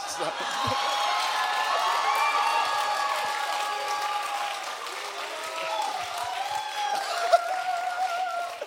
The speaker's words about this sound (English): There's three people on this stage are the only ones that don't know why everyone just cheered for Schindler's List.